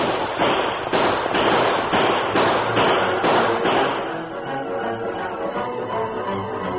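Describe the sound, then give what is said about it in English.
Rapid volley of gunfire as the Lone Ranger and Tonto open fire on a small group of Indians, many sharp, loud cracks in quick, fairly regular succession before the shooting thins and trails off into a lower rumble. “The small group of Indians had been so preoccupied with the anticipation of capturing the girl that they had not seen the approach of the Lone Ranger and Tonto, and the first volley of lead that whistled among them caused surprise and consternation.”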